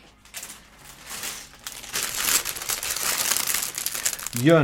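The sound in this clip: A plastic bag being crinkled open: dense crinkling that starts soft, grows louder and steadier midway, then a voice cuts in briefly at the end.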